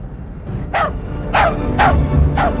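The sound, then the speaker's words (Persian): A dog barking four times in sharp, mid-pitched barks, spaced fairly evenly over about two seconds above a steady low background hum. “خفش کنید این سگ لعنتی رو، خفش کنید وگرنه بد میبینید.”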